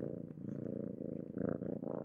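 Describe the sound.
A cat purrs softly in a steady, low, rhythmic rumble of quick pulses, heard alone.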